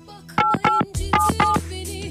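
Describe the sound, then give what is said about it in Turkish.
Touch-tone dialing on a telephone placing a call: four short, loud beeps in two pairs with a click between them, over a faint steady hum. “Bir arayayım dur bakayım şöyle bir arayayım.”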